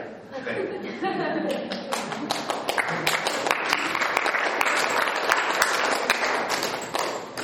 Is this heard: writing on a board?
no

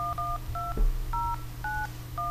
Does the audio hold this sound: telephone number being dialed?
yes

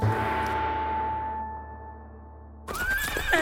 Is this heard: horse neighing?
yes

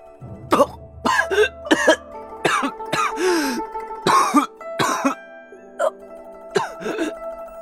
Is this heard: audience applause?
no

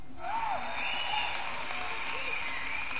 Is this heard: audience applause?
yes

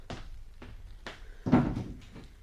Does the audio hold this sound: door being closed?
yes

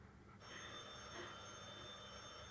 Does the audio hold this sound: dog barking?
no

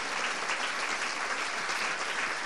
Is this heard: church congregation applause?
yes

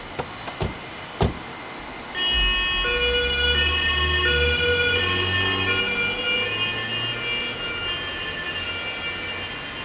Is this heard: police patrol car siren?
yes

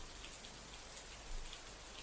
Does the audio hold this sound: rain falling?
yes

